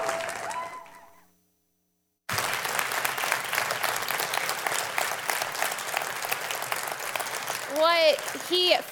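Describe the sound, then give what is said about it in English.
An audience applauding to welcome a new team member: a voice speaks briefly, then after a short pause a full, sustained round of clapping rises, with a few vocal cheers near the end. “put your hands together, welcome, and let her know that we desire her to be a part of this team”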